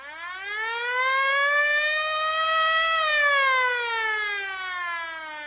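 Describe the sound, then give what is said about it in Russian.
A single police siren wails loudly and alone, its tone climbing slowly in pitch before gently falling away again. “А вот и сирены милицейские, прислушавшись, сообщила готесса. Приехали.”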